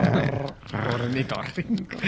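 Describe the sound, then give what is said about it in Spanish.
A voice imitates a platypus's growl with a few short, low, rough growling bursts separated by brief pauses. “El sonido que hacen es como un gruñidito.”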